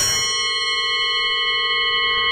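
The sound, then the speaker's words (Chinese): A foot-operated bell on a pedicab tricycle, pressed by the seated passenger, rings loud and continuous, a bright metallic tone with rich overtones that sustains without dropping off. “这是三轮车上用的，蹬三轮的师傅在前面蹬、嗯、后边坐着这个踩， 坐着的人踩”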